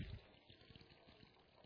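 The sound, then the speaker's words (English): Water drains from a completely saturated sponge as it is pulled out and squeezed, a faint, steady trickle and dribble of liquid that runs the whole time. “This sponge, I'm going to dip it in this water, and I'm going to pull it out. It has been completely saturated.”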